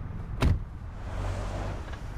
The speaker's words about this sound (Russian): Машина отъезжает